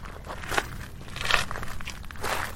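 Footsteps crunching as someone walks toward a meeting point, a few gritty steps with uneven spacing at moderate loudness.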